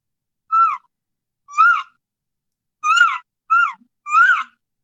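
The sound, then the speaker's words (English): A hunter's voice imitates an elk calf with five short, whiny mewing calls, separated by brief silences, the last three closer together. “I'm laying out these calf sounds. These calf sounds, they sound like this.”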